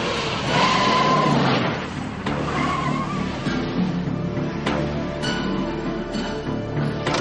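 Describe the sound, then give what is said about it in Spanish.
Tires squeal and skid as a car swings around to point its nose toward a cliff edge at the Colorado canyon, with loud, sustained engine and road noise throughout. “gira el coche enfocando su morro hacia el acantilado”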